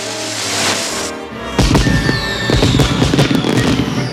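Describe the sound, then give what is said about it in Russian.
Fireworks launched from tubes set on the ground beside boulders in a park erupt in a dense, loud volley of popping bangs and crackles, with a brief whistling tone rising above the bursts. “ставит на землю трубки фейерверка. Проведя по валуну, зажигает спичку, подносит ее к фитилю.”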